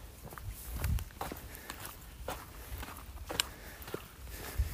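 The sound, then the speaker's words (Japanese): Soft footsteps of a hiker walking along a paved road on a countryside nature trail near Isehara, Japan. Faint, irregular scuffs and taps continue throughout at a relaxed walking pace. “今舗装路をずっと歩いてて”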